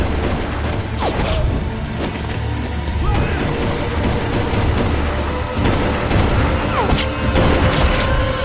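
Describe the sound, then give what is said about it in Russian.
Gunfire in a film shootout: a few sharp shots and crashing impacts ring out over a dense, continuous background of noise, with no clear voices. “Лукас открывает огонь. Пуля попадает в черноволосого мужчину. Седой мужчина отстреливается.”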